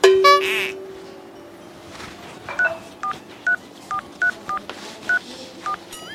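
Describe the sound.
Touch-tone dialing of a telephone number: eight short keypad beeps in an uneven rhythm after a brief tone at the start, over a faint steady hum.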